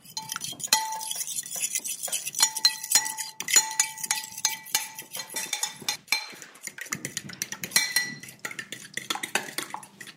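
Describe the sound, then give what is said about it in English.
Eggs being whisked in a bowl for dipping floured fish goujons, producing many rapid, irregular clinks and scrapes of utensil against the bowl in a continuous busy patter. “Whisking it.”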